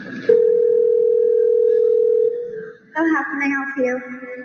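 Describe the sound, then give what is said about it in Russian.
A single steady ring tone sounds on an outgoing phone call to a hair salon, holding an even pitch for about two seconds before it fades, and then a voice answers over the line. “И вы сейчас услышите реальный телефонный разговор Google Assistant с салоном, чтобы записать вас на стрижку.”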